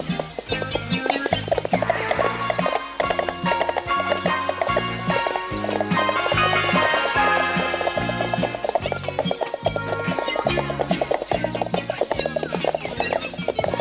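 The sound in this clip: Clip-clop of horse hooves as a rider sets off along the road: a steady, rhythmic beat of hoofbeats running throughout, loud and mixed with music.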